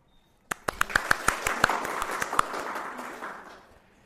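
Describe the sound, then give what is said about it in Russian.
Applause for a guest introduced at a debate event: a few sharp individual claps quickly swell into dense clapping from the audience, which then gradually fades away. “Похлопаем.”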